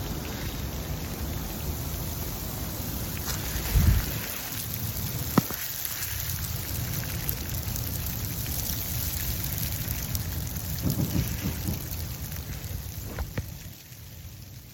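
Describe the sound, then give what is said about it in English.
Freezing rain, small ice pellets falling on dry leaves during late November precipitation in the Midwest, makes a steady dense patter and hiss throughout, with a couple of slightly louder bumps partway through. “it always starts off as little ice pellets. So freezing rain on top of dry leaves.”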